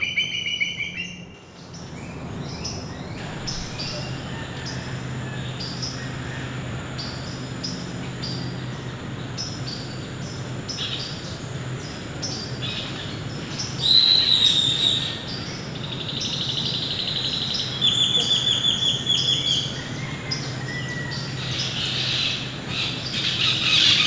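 Bird calls from a bird that vocalizes like a small parrot: shrill, high chirps and squeals ring out over a steady outdoor hiss, one short burst midway and a longer run of repeated calls later on.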